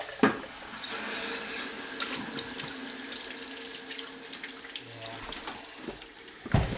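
Running tap water as items are washed by hand: a steady rush of water with irregular splashes and light clatter, louder bursts near the start and end.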